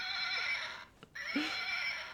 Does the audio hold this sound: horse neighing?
yes

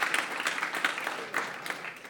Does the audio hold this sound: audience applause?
yes

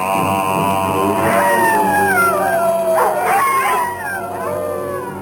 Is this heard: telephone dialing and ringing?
no

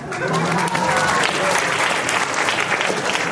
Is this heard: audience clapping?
yes

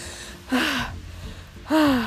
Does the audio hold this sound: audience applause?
no

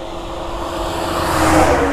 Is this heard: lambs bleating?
no

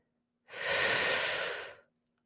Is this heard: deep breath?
yes

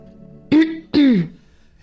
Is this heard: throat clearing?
yes

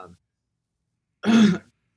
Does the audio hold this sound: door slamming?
no

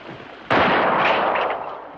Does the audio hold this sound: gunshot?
yes

